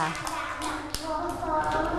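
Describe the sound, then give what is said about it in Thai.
Children clap their hands in a classroom with a dense, continuous patter of claps and a young voice mixed in, holding a steady loudness across the short stretch. “ปรบมือให้น้องเกด”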